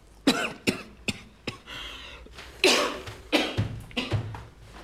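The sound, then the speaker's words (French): Repeated coughing from a man, a series of sharp, harsh bursts in an irregular rhythm, some loud and some softer, with no talk. “Tu tousses seulement parce que t'es trop coincé.”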